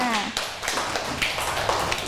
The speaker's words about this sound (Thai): ปรบมือให้เพื่อนหน่อยค่ะ